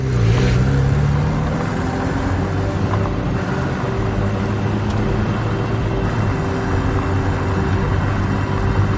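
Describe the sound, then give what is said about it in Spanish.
A car engine starts up and pulls away, first climbing briefly in pitch and then holding a steady, loud droning hum that continues to the end. “El conductor del Dian enciende las luces y arranca de nuevo.”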